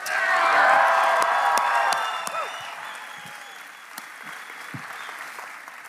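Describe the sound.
Audience applause welcoming a pastor to the stage: loud, dense clapping with some cheering for about two seconds, then fading into softer, scattered claps.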